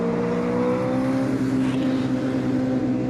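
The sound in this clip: A car with no power steering drives along with a steady, even engine drone that holds a constant pitch throughout, with no voices.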